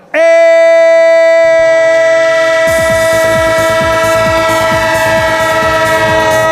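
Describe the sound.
A train horn jingle: a loud, steady horn chord holds throughout, joined after a moment by the rhythmic clickety-clack of railway wheels that grows busier as it continues.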